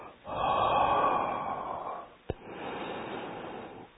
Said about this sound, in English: now here, exhale from the mouth. Inhale from nose.